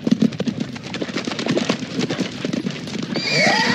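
A horse whinnies with a loud, shrill, wavering cry at the end, after a steady run of clip-clopping hoofbeats.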